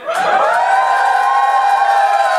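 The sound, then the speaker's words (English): Loud audience cheering and whooping as a crowd votes by volume for one option, a dense, sustained roar with shrill screams over it that holds steady from start to finish. “Give me a cheer if it's the 97-person orgy.”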